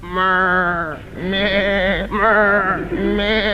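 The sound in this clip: A human voice imitates a sheep bleating: four long, wavering, nasal bleats in a row, loud and with nothing else around them.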